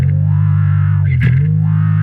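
Guitar wah pedal effect on a sustained, distorted tone played through an amp, with one clear filter sweep rising and falling near the middle while the tone holds steady.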